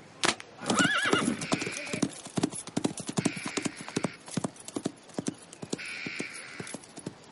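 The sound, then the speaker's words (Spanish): Horses ridden by hunters gallop off, their hooves pounding in quick, uneven clip-clops. Several loud whinnies break in over the hoofbeats. “Dos jinetes vuelven grupas a su encuentro prudente distancia, los jinetes hacen señas a Felipe que le responde con la mano y se aleja a galope.”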